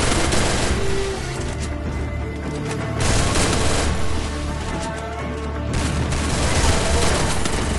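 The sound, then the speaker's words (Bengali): Gunfire from two Vector submachine guns in a shooting video game, dense rapid overlapping bursts that fill the whole stretch at a constant high loudness with no real pauses. “পিছের থেকে double Victor দিয়ে মারতেছে”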